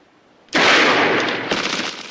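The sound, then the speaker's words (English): A single loud gunshot fired at a padlock aboard a train, cracking in suddenly and trailing into a sustained noisy rumble, with a smaller second burst just after. “John fires at a padlock.”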